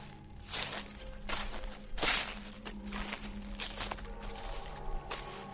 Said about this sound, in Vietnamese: thằng Toàn nghe rõ tiếng bước chân dẫm lên trên lá khô cứ sột xà sột soạt